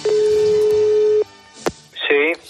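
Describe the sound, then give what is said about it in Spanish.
Telephone signalling for an incoming call: a long steady electronic tone, a sharp click, then a short warbling ring tone. “Carlos Pumares recibe la siguiente llamada”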